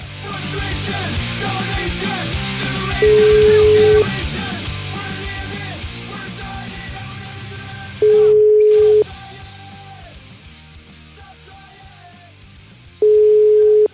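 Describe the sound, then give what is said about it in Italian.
Telephone ringing tones as a radio show places a call: three one-second tones repeat evenly about five seconds apart, each rising clearly above a continuous bed of background music. “fammi sentire questo Donolato, chiamiamolo, dai”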